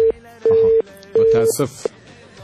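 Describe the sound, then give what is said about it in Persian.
A telephone tone follows a dropped call: a steady mid-pitched tone switches on and off in long, evenly spaced beeps. “متاسف هستیم که تماس سبقت الله جان قطع شد.”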